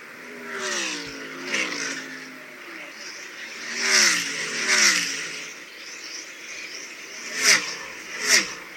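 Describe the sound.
Stock car engines roar past on the final lap of a race, several cars sweeping by in bursts with the engine pitch dropping as each one passes, and a steady drone between them.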